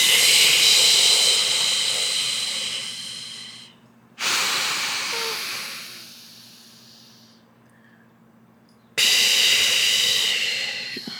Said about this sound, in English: One more time. And exhale for eight.